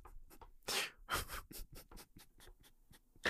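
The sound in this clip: Typing on a keyboard: quiet, irregular clicks and taps in quick succession, with no voices.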